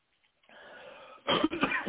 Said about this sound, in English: Excuse me, I got a chia seed stuck in my throat.